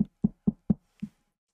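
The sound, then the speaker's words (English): Five knocks on a door, four evenly spaced hollow raps followed by a slightly delayed fifth, clear and alone against silence. “is somebody really knocking on the door right now?”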